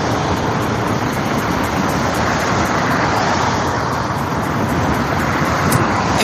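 Traffic on the A5 motorway roars steadily, as heard from homes close to the road: a dense, unbroken rumble and hiss of passing vehicles with no pauses and no voices.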